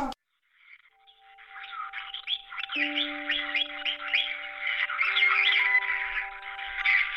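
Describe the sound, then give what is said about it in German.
Parrots in a bird shop squawk and chirp in a busy, continuous stream of rapid calls that grow louder over time, layered above several steady, faint tonal hums. “Mein Vater in seinem Vogelladen. Er bringt den Papageien bei, am Telefon Hallo zu sagen.”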